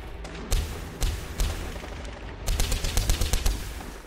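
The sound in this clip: Gunfire from rifles in a battle: a few sharp, separate shots, then a rapid crackling burst of many shots over a low rumbling background.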